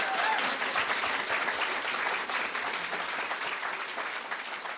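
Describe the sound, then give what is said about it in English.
Enthusiastic audience applause after a talk at a science festival in Dunedin, New Zealand: dense, sustained clapping from a crowd that slowly eases off toward the end. “enthusiastic applause from the audience”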